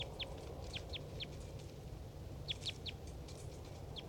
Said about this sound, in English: Wild bird.